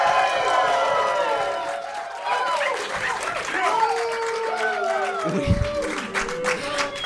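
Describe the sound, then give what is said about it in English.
An in-studio audience cheers and applauds at the kickoff of a live show. The clapping is dense and sustained, and excited voices shout and whoop over it throughout. “We are joined live with an in-studio audience. Everybody make yourself be heard.”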